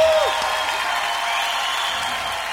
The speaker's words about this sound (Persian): یک دست خیلی قشنگ به افتخار این رفقای خوب من بذارید.